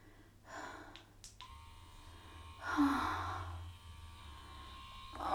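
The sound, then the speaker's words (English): A vibrator buzzing with a steady, high electric hum that holds for several seconds, joined by breathy gasps and sighs. “Vibe on my clit again.”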